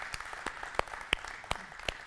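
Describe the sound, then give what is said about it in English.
A church audience claps for Mother's Day, six sharp, evenly spaced claps in a steady rhythm, crisp and moderately loud. “It's Mother's Day, and so y'all can clap for that.”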